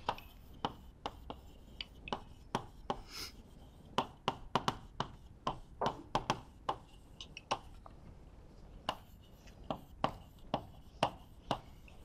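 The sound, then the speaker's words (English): Writing during a lecture: key terms are written out as a steady run of many short, crisp taps and strokes, each one sharp and brief, with brief pauses between bursts. “So let me just write down a few key terms that we're going to introduce throughout the lecture.”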